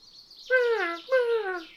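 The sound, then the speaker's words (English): Birds call in a wood: two loud, clear, drawn-out calls, each sliding downward in pitch, separated by a short gap. “Wow, there's some birds out here in this woods today.”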